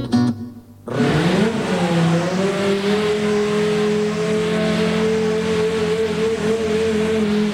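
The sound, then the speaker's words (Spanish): Formula 1 car engines roaring at the Montmeló racing circuit. After a quieter first second, one loud, steady engine drone sets in and holds a low, even note. “este es el sonido de la Fórmula 1. Este es el ruido de los motores de Fórmula 1 en el circuito de Montmeló esta tarde.”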